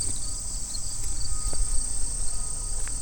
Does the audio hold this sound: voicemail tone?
no

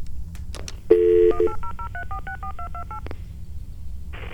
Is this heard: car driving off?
no

